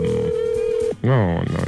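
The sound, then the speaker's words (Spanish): A telephone call is placed: a steady, single-pitched line tone holds for about a second, then a voice speaks over the line. “¿Vas a llamar a Dariana?”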